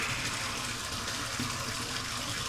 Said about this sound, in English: Is it time to turn off the water?